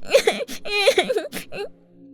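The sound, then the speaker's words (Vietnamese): A young boy sobs after being scolded at home over sweets: a few wavering, whimpering cries with shaky rising and falling pitch, fairly loud, then trailing off into near silence. “Hình như quá sợ hãi, nó bật khóc nức nở.”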